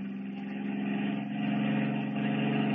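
Car engine running while driving downhill, a steady mid-pitched hum with a slight dip partway through, continuing evenly with no voices.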